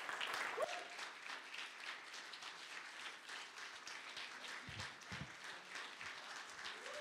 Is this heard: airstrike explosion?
no